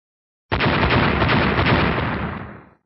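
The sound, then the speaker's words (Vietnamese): Explosions as earth giants shatter: a sudden, loud, continuous rumbling blast that starts sharply, holds for about two seconds, then fades out, with no voices. “Liên tục bốn tiếng nổ, bốn người khổng lồ đất trước mặt Tô Minh tan vỡ hết.”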